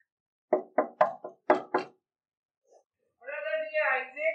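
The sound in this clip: Six firm knocks on a front door in quick succession, followed after a pause by a person speaking.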